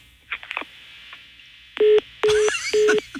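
Telephone number dialed on a keypad: three loud, steady touch-tone beeps in a row, each lasting a fraction of a second. Faint short clicks come before them.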